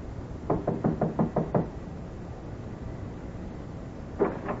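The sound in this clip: Knocking on a warped, dark-stained wooden door in a shabby hallway: a quick run of about six sharp knocks, then a pause and one more single knock, loud and clear with no voices.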